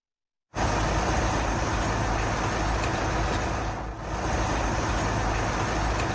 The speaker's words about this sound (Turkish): Bak, tır geçtiği zaman sallanıyor. Tır veya benzeri büyük araç geçince sallanıyor.